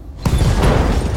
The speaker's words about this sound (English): Glitch can blow up the Locust with a melee attack. Like, one melee attack would do it. So we're gonna do that.